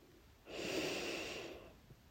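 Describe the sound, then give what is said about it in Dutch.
A deep breath drawn in through the nose during a guided belly-breathing exercise, hands resting on the abdomen: one long, airy inhale that swells in and holds steady for over a second before easing off, alone with no talk. “Adem de keer goed in langs je neus.”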